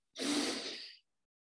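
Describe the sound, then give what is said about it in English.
One deep breath drawn in before a closing prayer is sung, a single soft airy inhale lasting under a second, rising quickly and tapering off, then silence. “Breathe in to begin.”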